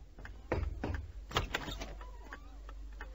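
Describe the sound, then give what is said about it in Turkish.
Knocking on a house door: a few firm, uneven raps that stand out against a low background murmur, followed by quieter clicks and rustling. “Hah bak, adını andın, kapı çaldı. Gelen mutlaka odur.”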